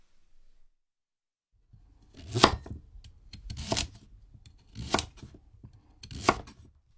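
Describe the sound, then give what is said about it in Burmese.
A knife cutting eggplant into pieces, quartering it and then cutting it into 3 cm chunks: four firm chopping strikes at a steady interval, with quieter scraping and small taps between them. “အဲ့ဒီကစုံကိုတဝက်လှီးလိုက်ပါလှီးရတဲ့တဝက်ကိုနောက်ထပ်တဝက်ထပ်လှီးပါ”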